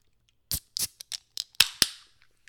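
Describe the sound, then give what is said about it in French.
A beer being opened: a quick series of short, sharp clicks and snaps, then two louder cracks, each with a brief fizzing hiss trailing away, with faint ticks at the end. “on va s'ouvrir une petite bière”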